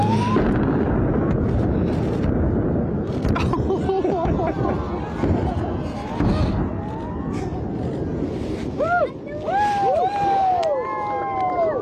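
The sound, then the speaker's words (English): An explosive blast at the Kalgoorlie Super Pit gold mine, set off for a gender reveal with pink powder, gives a long, deep rumbling roar under crowd chatter, followed by high whoops and cheering. “Here is the moment that an explosive blast at Kalgoorlie's Super Pit gold mine sent pink powder flying and tears flowing for a unique gender reveal.”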